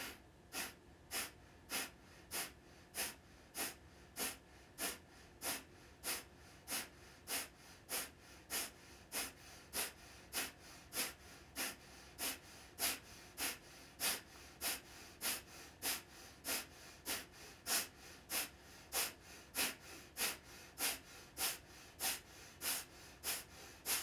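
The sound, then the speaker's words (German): Forceful, rhythmic nasal exhalations from a Kapalabhati breathing exercise: dozens of short, sharp puffs of air through the nose at a steady, quick pace, each an even burst of breathy noise. Soft overall, with no talking. “Mach dich bereit für die zweite Runde, Kapalabhati. Atme bequem ein und beginne wieder stoßweise über die Nase auszuatmen.”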